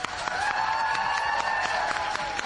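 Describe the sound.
A crowd of Unia Leszno speedway fans gives a rider an ovation at a team presentation. Dense applause clatters on without a break, steady and even throughout.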